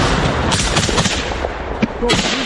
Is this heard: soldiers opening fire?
yes